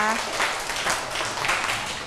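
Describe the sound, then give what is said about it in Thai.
Children applaud after a musical performance played for a Royal Ploughing Ceremony rite. A dense, even patter of many small hands clapping runs steadily the whole way, with voices faintly mixed in. “เด็กๆครับปรบมือให้กับการบรรเลงชุดนี้ด้วยนะคะ”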